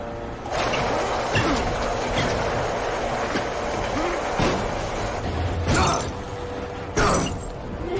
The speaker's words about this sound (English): Leon smashes a window to get in